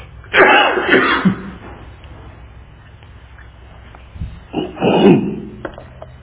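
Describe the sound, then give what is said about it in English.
Coughing from a tickle in the throat comes in two rough, rasping bursts separated by a quiet pause, each a cluster of harsh coughs over a low background hum. “excuse me, I've got a tickle in my throat and I can't get rid of”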